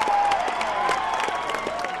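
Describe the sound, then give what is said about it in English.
A crowd cheers and applauds at a robotics competition as the robot Chimp gets back up on its own after a fall, a sustained, dense roar of clapping and shouting. “Chimp gets back up on its own. The crowd loses it.”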